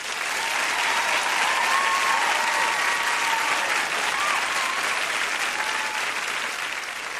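Applause from a concert audience for a band member on stage, a dense, steady wash of clapping that holds at an even loudness for several seconds.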